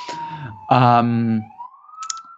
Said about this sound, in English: Probably you can already hear in the background the sirens coming for them. It's a little New York style interruption.